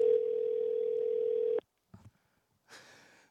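A telephone call waits to be answered, heard as a steady single-pitched line tone lasting about a second and a half that cuts off abruptly, followed by a couple of soft clicks and a short burst of hiss.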